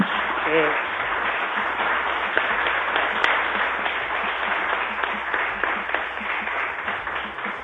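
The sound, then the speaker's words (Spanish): An audience applauds at a gathering on alternative and community media, with steady, dense clapping throughout and voices mixed in. “yo pido un aplauso a Modesto por haberse acercado hasta aquí”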